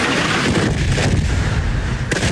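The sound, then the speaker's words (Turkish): Explosions boom from all sides in a loud, dense, continuous roar, heavy overlapping blasts and crackling rumble merging without clear gaps between them. “Patlama sesleri dört bir yandan yükseldi.”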